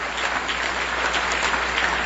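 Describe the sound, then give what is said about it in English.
Audience applause for the Cousteau family on stage at a live event: dense, steady clapping from many hands that holds at an even loudness with no voices. “Ladies and gentlemen, can we please give a round of applause to the entire Cousteau family up on the stage?”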